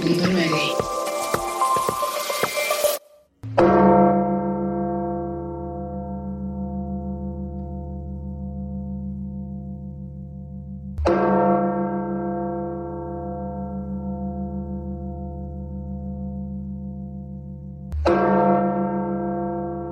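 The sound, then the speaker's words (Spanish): Deep church bells ringing at night to announce the Pope's death: three slow, widely spaced strikes, each leaving a long, sustained humming decay, after a short burst of other noise at the start. “Así se escucharon las campanas en la madrugada a tiempo de México, a las 2:30 de la madrugada, anunciando la muerte del Papa Francisco”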